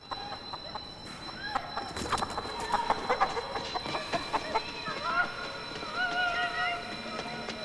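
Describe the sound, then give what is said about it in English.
Chicken clucking on the steps of a war-damaged stairwell, short clucks repeating amid a dense, busy background of noise and other sounds. “A chicken is on the steps in front of him.”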